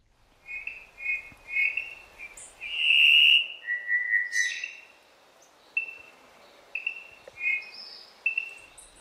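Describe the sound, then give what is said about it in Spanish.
Cuban solitaire (Myadestes elisabeth) song: a series of clear, fluty, high whistled phrases separated by short pauses, with the longest and loudest phrase near the middle, heard alone without voices. “Y pocos paisajes sonoros resultan tan admirados en Cuba como el que compone con maestría el solitario cubano, nombre científico Miadestes Elizabeth.”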